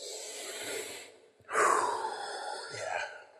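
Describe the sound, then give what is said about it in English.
Several people take a big breath together: a soft drawn-in inhale, a brief pause, then a louder, breathy exhale followed by another gentler breath, with no talking. “So let's all take a big breath together.”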